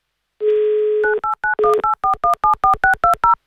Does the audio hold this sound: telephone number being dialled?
yes